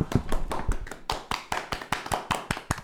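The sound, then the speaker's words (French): Studio applause from a small group, sharp, fairly sparse claps landing in a loose, uneven rhythm, with a few louder individual hand smacks through the burst. “Et j'aimerais d'ores et déjà qu'on applaudisse, s'il vous plaît.”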